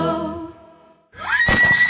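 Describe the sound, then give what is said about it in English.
A horse whinnies at a riding stables: a sharp rising cry swells into a loud, shrill burst with breathy, shuddering pulses. It follows a softer fading tone, with no talk over it. “We buy, sell, trade horses. We board horses, lease horses.”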